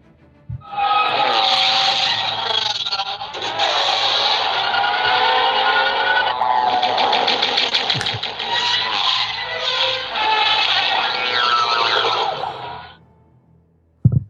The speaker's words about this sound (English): I want to say it's the pod racers racing around